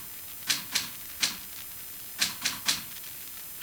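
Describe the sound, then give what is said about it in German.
A typewriter types in the next room with sharp, clacking keystrokes in two groups of three, separated by a short pause. Each strike is crisp and brief against a quiet background. “Aus dem Nebenzimmer waren Tippgeräusche zu hören.”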